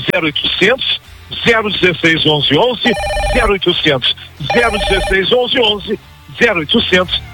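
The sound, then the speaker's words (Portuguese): A telephone ringing as callers phone in: two short bursts of bright, trilling electronic ring, each under a second, sit beneath continuous energetic talk by a man. “Ó, já estão ligando.”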